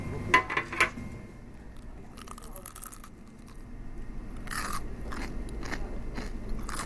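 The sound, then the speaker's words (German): Crunchy chicken nuggets being bitten and chewed at a roadside rest-stop eatery, with a few sharp crunches at first, then a longer run of softer crunching and chewing. “Die Nuggets sind knackig.”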